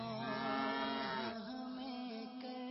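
Cow mooing, one long, low, drawn-out call with rich harmonics that dips slightly in pitch midway and then holds steady.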